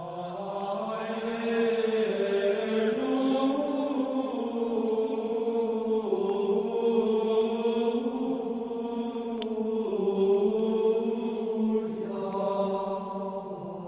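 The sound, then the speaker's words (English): Gregorian chant sung by monks, one unaccompanied melody line with no harmony, voices only and no instruments, sustained and steady throughout with slowly shifting pitch. “Gregorian chants. That was church music. You didn't participate. You listened to the monks, and they sang”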